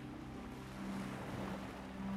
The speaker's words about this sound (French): Et vous entendez le bruit des vagues